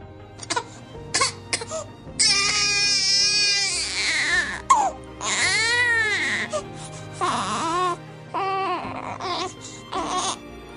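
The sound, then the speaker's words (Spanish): A newborn baby cries in several wailing bursts that waver up and down in pitch, loud and strained, separated by short gasps and pauses, with a few brief whimpers. “hasta que le sonríe y el pequeño se pone a llorar.”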